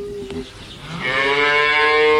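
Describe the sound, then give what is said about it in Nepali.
A cow mooing from hunger, a long, loud, drawn-out moo that swells and holds steady to the end. “ओहो, गाईलाई भोक लागेको जस्तो छ।”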